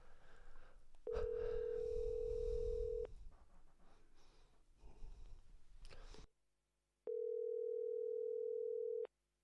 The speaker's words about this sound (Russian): звонок идет, да?